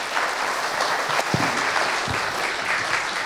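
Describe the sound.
An audience at a church ministry gathering applauds to welcome a speaker to the stage, a steady, dense wash of clapping hands held at an even level from start to finish, with no voices over it.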